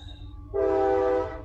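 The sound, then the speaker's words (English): A train horn sounds one sustained, steady blast of under a second over a low rumble. “Hello, train. Okay. I thought that was part of it. And it just barrels down.”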